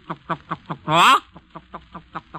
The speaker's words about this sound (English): and the clucking of the hens as they run about picking up a little corn here, a little kernel there